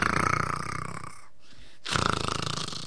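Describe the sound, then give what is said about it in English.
Loud, rasping snores, two buzzy drawn-out breaths separated by a brief quiet pause. “That's snoring.”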